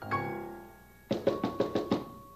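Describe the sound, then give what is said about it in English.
Six quick knocks at a door in an even rhythm, following a fading musical note. “It's a good feeling to know that somebody's at the door, too. Will you look to see who it is out there?”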